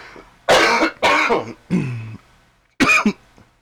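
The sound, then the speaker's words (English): Coughing and throat clearing from a man with a congested throat: four loud, hoarse bursts, each harsh and rasping. The first two come close together, then a longer gravelly rattle, a short pause, and a final sharp cough. No words are spoken. “I got a little extra in my throat today.”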